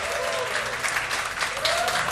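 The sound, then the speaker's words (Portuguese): Audience applause: a dense, steady burst of many hands clapping that holds at an even loudness without pause from start to finish. “gostou, bate palma pra nós”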